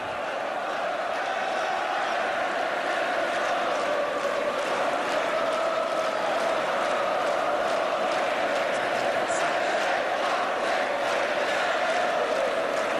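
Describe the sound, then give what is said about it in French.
A stadium crowd at a football match cheers the team on in a continuous, even roar that stays loud and steady throughout with no clear peaks. “Public qui pousse encore.”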